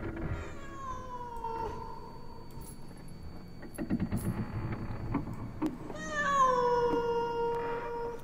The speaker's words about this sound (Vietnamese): có con mèo không biết ở đâu xuất hiện, cứ đứng ở ngoài hiên kêu lên những tiếng ghê rợn thảm thiết.